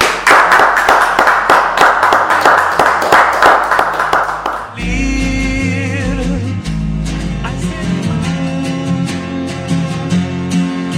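Audience applause for a woman after a reading at a gathering: dense, steady clapping that ends abruptly when music takes over.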